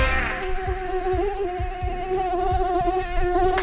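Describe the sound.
A mosquito buzzes with a high, thin, steady whine that drones on at an even pitch for the whole few seconds, alone with no voices.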